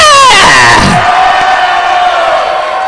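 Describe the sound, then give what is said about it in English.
Loud shouting from a church audience, opening with a long voiced cry that slides down in pitch, then settling into a sustained, roaring mass of voices. “I want you to clap and let yourself go in the Holy Ghost and shout,”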